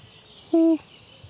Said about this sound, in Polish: od marca do kwietnia można usłyszeć pochukiwanie, takie monotonne, niezbyt głośne, nie rzuca się w uszy